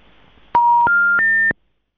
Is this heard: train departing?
no